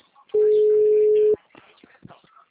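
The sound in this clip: A single steady telephone line tone sounds while a long-distance call is placed. It is loud and lasts about one second, with faint murmuring sounds before and after it.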